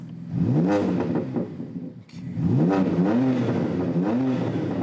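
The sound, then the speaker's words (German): A BMW engine with aftermarket software tuning and five selectable sound modes revs hard in several rising and falling sweeps, loud and throaty, with a brief dip between bursts and no voices. “Beliebt ist auch nachträgliches Software-Tuning, wie an diesem BMW. 5 Modi hat der jetzt drauf. Aha. Nachträglich, wohl bemerkt, das ist nicht mehr im Bereich, was BMW mal vorgesehen hat. Verändern Sie jedes Mal das Klangbild.”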